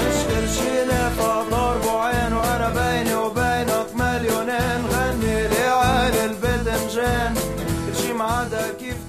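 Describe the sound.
Band music from a seven-piece group with bass, two guitars and violin, played loud and dense with a strong, regular beat throughout and no singing or talk.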